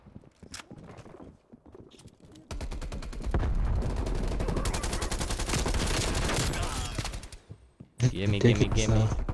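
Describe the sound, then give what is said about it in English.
Rapid automatic fire from an Uzi submachine gun in a video game: a dense sustained burst of about five seconds, then another loud burst right at the end. “Dude, if you can hold down the trigger, and there's absolutely almost no recoil. On what gun? Oh, you changed the setting? I'm using the Uzi,”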